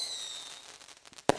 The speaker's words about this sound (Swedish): Det som ni hörde där var fyrverkerierna som bränns av inne i Ulf Kristerssons innersta.